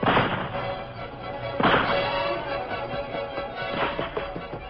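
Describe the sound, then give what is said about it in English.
Rifle gunfire on a rocky, boulder-strewn slope during a shootout with an outlaw: a few sharp, booming shots, the loudest near the middle, over a steady, noisy rumble. “Take your rifle and keep firing at him. Make him take cover.”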